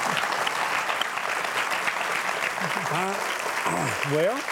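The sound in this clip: Audience applause welcoming a talk show guest: a steady wash of clapping fills the whole clip, with whooping voices rising over it near the end.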